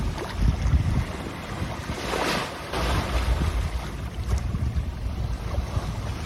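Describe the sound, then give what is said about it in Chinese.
Wind and waves at the Tamsui waterfront make a soft, continuous wash with low rumbling and a few gusty swells that rise and fall. “而且还有起风哎！如果你耳朵够好的话。”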